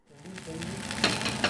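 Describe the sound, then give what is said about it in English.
Beef cheeks sizzle in a pan on a stove at a London culinary school, a steady, faint frying hiss that grows slightly louder and crackles near the end. “Beef cheeks sizzle in a pan”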